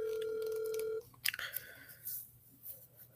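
A steady telephone tone sounds for about a second and cuts off, followed by a few faint clicks and rustles as a number is dialed.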